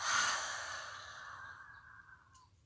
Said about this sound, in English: a deep inhale into your beautiful, strong body. Open the mouth, exhale, let it go.